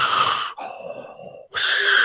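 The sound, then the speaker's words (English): A person deliberately wheezes in reply to something: a harsh, breathy rasp, then a thinner whistling, strained tone, then another loud breathy rasp, with no words spoken. “I wheeze back at it.”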